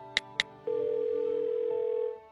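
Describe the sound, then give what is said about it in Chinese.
Telephone ring tone as a call goes through: two short electronic beeps, then a long, steady, fairly loud tone that holds for about a second and a half before cutting off, with no voices. “电话响了几声，接通了”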